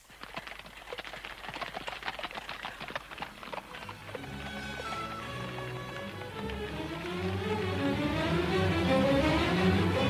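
Horses pull a carriage after being whipped, with many quick, uneven hoofbeats at the start giving way to a denser, steady sound that swells louder toward the end. No voices are heard.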